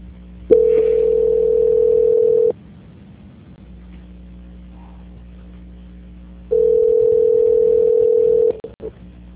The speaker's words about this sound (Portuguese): gentileza, transferir a ligação. Transferência.